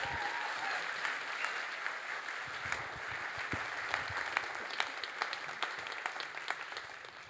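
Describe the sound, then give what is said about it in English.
An audience claps to welcome a preacher at a church service. The applause is dense and sustained, with single sharp claps standing out more clearly toward the end as it thins and fades. “So please, will you put your hands together and welcome SJ Coleman.”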